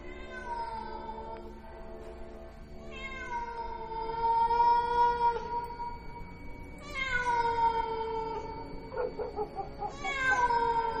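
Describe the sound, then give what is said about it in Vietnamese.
A wild cat meows near a guava tree, letting out a few long, drawn-out, wailing meows separated by short pauses. The calls are moderately loud over a quiet background. “Thỉnh thoảng lẫn trong đó có tiếng con mèo hoang đâu đó bên mạn cây ổi, nó cứ kêu ngoao ngoao nghe đến giận cả người.”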